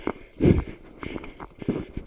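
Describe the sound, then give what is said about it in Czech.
Footsteps walking across a meadow, several soft, uneven thuds with light rustling between them and no voices. “Tak jdu po louce.”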